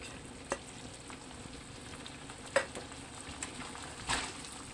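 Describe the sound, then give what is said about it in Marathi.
Chicken with coriander sizzles as it is stir-fried in a pan over low to medium flame. A faint, steady frying hiss carries a few brief scraping clatters from stirring. “परतून घेऊ. तुम्हाला पूर्णपणे जर chicken dry हवं असेल तर तुम्ही आता फ्लेम हायवर ठेवून परतू शकता.”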